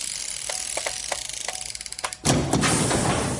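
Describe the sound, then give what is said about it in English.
A vault door opening effect: a few spaced metallic clicks give way to a rapid ratcheting run, then a loud, heavy rushing release that sustains to the end. “So without further ado, it's time to crack open the vault and get to it.”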